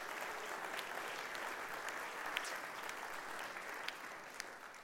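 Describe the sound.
Soft, steady applause from an audience congratulating an engaged couple, with many hands clapping in an even wash and a few sharper claps standing out.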